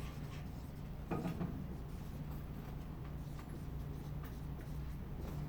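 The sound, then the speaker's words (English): Faint scratching of writing by hand, with short, irregular strokes over a low steady background hiss and no voices. “So I'm writing these down”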